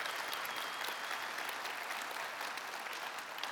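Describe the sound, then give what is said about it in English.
A church audience applauds in a steady, dense wash of hand claps that stays fairly even and quiet throughout, with no voices standing out. “So if you are here on site, would you put your hands together? Get loud.”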